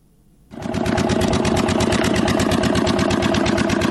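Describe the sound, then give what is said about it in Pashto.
A generator engine powers a pipe-making factory in a Kandahar industrial park. It kicks in after a brief quiet moment, then runs loud and steady with a fast, even mechanical pulse that holds to the end. “لدی جنراتور څخه د پایپ جوړولو د یو فابریکې لپاره برېښنا برابرېږي.”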